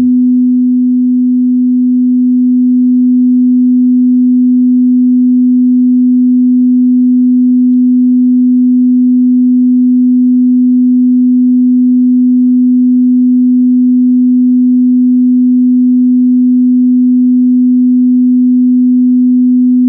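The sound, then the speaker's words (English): A pure 250 hertz sine test tone, loud and perfectly steady at one pitch, holds unbroken for twenty seconds with nothing else heard. “So tune in to this frequency and see how it feels. 250 hertz, tone along.”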